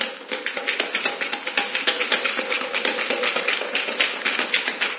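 Coins rattling inside a bottle that is being shaken hard, a loud, continuous, rhythmic clatter made of many quick, sharp metallic bursts.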